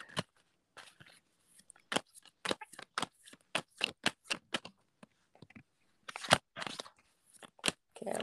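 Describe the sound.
Tarot cards being shuffled and drawn during a reading: many crisp, irregular snaps and flicks of card stock, some in quick clusters, others isolated, with quiet gaps between them and no talk.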